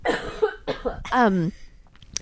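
A person coughs a few times in quick, harsh bursts with short breaths between them. The last cough is more drawn out and throaty, and a faint click follows.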